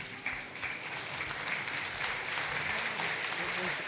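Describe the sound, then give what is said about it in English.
Applause from a conference audience giving a standing ovation as a speaker on distributed manufacturing is welcomed: dense, steady clapping that holds an even loudness throughout without a break. “Please welcome Neil Sharwood. A standing ovation for Neil Sharwood.”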